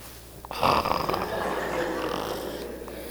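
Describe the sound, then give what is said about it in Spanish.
A man imitates snoring with his voice during a church sermon. He makes a long, rasping, breathy snore that swells suddenly and then drags on at a steady, noisy level. “Pura excusa, están roncando. No están orando.”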